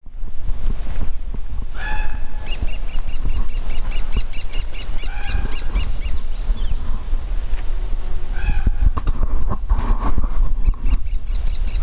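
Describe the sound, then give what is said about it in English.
Song of a Wilson's Warbler: two bouts of rapid, sharp chip notes repeated in a quick chattering series, with a few scattered call notes, over a steady hiss of background noise. “Wilson's Warbler.”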